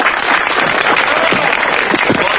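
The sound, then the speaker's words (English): Stage show audience giving a volunteer a hand before a hypnosis demonstration, a brief, loud burst of many people clapping steadily from start to finish. “Give him a hand, everybody!”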